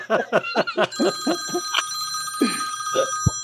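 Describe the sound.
A telephone rings with sustained, steady, high electronic tones that begin about a second in and hold to the end, mixed with other brief intermittent sounds.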